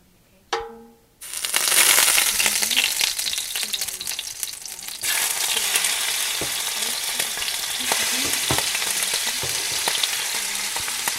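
Shrimp fry in a hot pan. A loud, steady sizzling hiss starts abruptly and runs throughout, with scattered pops and occasional scraping of stirring.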